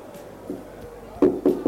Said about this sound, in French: Gilles frappe à la porte de la chambre de Frédéric et lui ouvre.